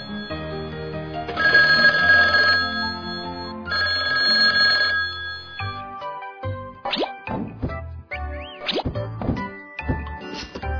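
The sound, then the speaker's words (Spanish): A telephone rings in two sustained, bright, bell-like bursts over a musical backing, followed by many quick cartoonish plops and boings. “Teléfono. Teléfono. Teléfono.”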